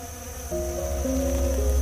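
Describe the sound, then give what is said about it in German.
Honeybees buzzing together in their hive, clustered around the queen to keep her warm until spring: a steady, droning hum of layered tones that grows fuller after the first half second and carries on alone. “So beschützen sie ihre Königin und halten sie bis zum Frühling warm. Dann kann sie wieder viele neue Bienenbabys legen.”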